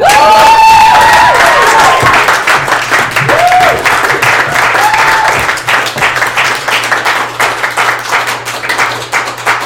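Comedy show audience applauding and cheering to welcome a comedian on stage, loud dense clapping with whoops and shouts at the start, then the applause gradually thins and fades.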